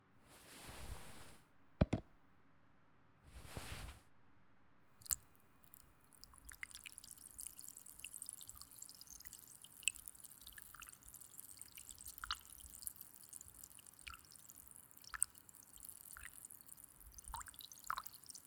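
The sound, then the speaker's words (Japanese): Soft crackling fizz and scattered tiny pops from a cotton swab soaked in fizzy carbonated drink. Two brief soft rustles come first, then quiet continuous effervescence runs to the end. “じゃあ綿棒に炭酸いっぱい染み込ませますよ。”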